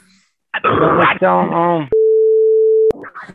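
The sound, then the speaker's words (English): A mobile phone over Bluetooth gives off a steady electronic tone, a single flat beep lasting about a second that cuts in sharply after a burst of voices and stops abruptly. “Sorry. I have my phone shut off, but it's Bluetooth, I guess.”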